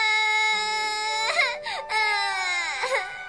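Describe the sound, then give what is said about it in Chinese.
A child crying in a loud, high, wavering wail, with sobbing breaks where the pitch bends and drops, continuous throughout and heard alone. “你别哭嘛，我们只是逗逗你的嘛”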